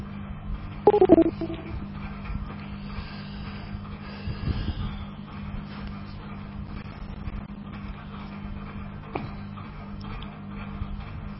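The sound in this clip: A telephone number is dialed with DTMF tones: a short burst of tones near the start and a faint tone later, over a steady low hum.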